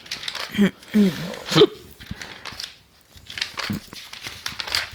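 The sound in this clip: Magazine pages rustling and crinkling as someone searches through an ad-filled magazine, with a few louder crisp flicks early on and softer papery shuffling afterward.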